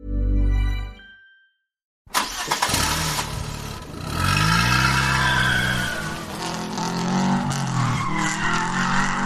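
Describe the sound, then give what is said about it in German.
Car tyres skid and squeal as the car spins circles on asphalt. A loud, continuous screeching roar with wavering engine tones follows a brief low rumble and a moment of silence. “machst du da gerade eine Krone mit deinen Reifen in den Asphalt?”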